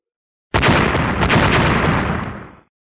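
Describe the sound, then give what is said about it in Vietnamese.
A loud explosion bursts in suddenly as a dense blast and holds a heavy, roaring rumble for about two seconds before cutting off abruptly, with no voices. “Tiếng nổ mạnh, thanh thế kinh người.”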